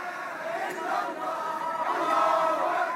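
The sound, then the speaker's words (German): Supporters at an airport cheer to welcome a returning exiled party leader: a dense, steady roar of many voices and shouts, loud and continuous throughout, swelling slightly near the end. “Am Flughafen wurde er von jubelnden Anhängern empfangen”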